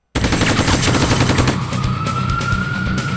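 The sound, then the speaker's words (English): Machine gun fire as a sound effect: a dense, unbroken stream of rapid shots that stays loud throughout, joined about halfway by a steady, piercing whistle-like tone. “Little machine gun.”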